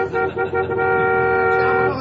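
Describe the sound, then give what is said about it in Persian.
Celebratory car horn honking in one sustained, loud blast with a steady tone, briefly wavering at the start before holding on. “اینم بوق شادی.”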